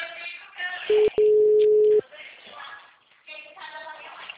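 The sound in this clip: Telephone tone during dialing: a steady, even-pitched tone lasts about a second with one short break, and voices talk before and after it.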